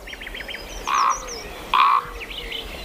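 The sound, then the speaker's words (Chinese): Calls of a nestling bird, one of a brood with a chick weak since hatching: a quick run of high chirps, then two louder, steady, whistle-like calls, with more scattered chirping over a constant background hiss. “其中一只雏鸟自出生以来就非常虚弱。”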